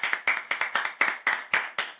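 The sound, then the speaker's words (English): Hand clapping in a round of applause. Sharp, slightly muffled claps keep a steady rhythm of about four per second throughout. “Actually, I give her a round of applause.”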